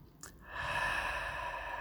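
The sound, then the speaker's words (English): One slow, deep breath taken during a mindfulness exercise, a soft airy rush that swells after a brief start and is held for over a second at a gentle, even level. “Let's just take three breaths.”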